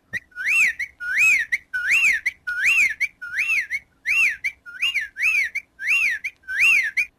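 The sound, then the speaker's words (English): Whippoorwill calling: many clear, whistled phrases repeat in a fast, steady rhythm. Each phrase is a bright, looping call with a short gap before the next, heard alone with no voices. “That is the sound of a whippoorwill, and that's another bird that apparently is disappearing as well.”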